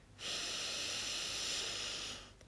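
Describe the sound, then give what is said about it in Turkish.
A single long exhale through the left nostril, with the right nostril held shut by a thumb, during an alternate-nostril breathing exercise. It is a soft, steady airy hiss lasting about two seconds, with no talking. “Sağ burun deliğimi sağ baş parmağımla kapatmıştım. Soldan nefes vererek başlıyorum. Nefes ver.”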